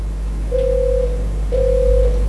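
A caller's line rings on a radio call-in phone connection, giving two steady mid-pitched ringback tones, each about half a second long, separated by a short gap, over a low constant hum.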